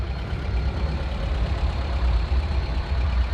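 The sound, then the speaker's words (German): A transport van and two limousines pulling away from outside a bank branch, heard as a steady, low engine rumble with a deep drone that holds at a moderate level and never cuts out. “Der Transportwagen und die beiden Limousinen vor der Bankfiliale setzen sich in Bewegung und fahren auf das Comet-Haus zu.”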